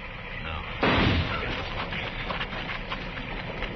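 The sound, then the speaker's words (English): Gunshot fired at a tree: a single sharp, loud crack followed by a rumbling decay that lingers beneath steady background noise. “I'm going to flip a shot at the tree”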